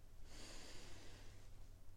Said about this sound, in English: we're going to start together by taking just a few deep breaths in